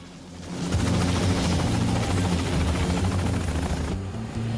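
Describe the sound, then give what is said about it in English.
A helicopter lands at an airfield, its downdraft blowing robes about. The rotors make a loud, steady thrumming roar that swells in at the start and dips slightly near the end, with no voices. “The downdraft from the chopper blows the monk's robes. The chopper, with Billy now sitting in it with Gene, lands at Longchen Airfield.”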